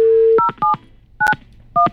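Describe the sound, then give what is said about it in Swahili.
Telephone keypad tones as a number is dialed: a steady dial tone cuts off, then four short, clear beeps follow at uneven intervals, with no talk. “Wache ni mpigie simu Felix.”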